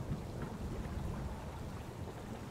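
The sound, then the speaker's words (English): A night thunderstorm over the sea, with low rolling thunder blending into a dense, steady wash of rain that holds at an even loudness throughout, with no voices. “With each scattered tear of the night sky, rumbles of thunder fill the air”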